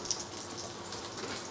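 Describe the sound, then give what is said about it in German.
Steady sizzling of rabbit loin frying in a pan with a mix of butter and oil, a dense, even crackle that holds throughout with no talk. “Und dann braten wir die Kaninchenrücken einfach einmal leicht an.”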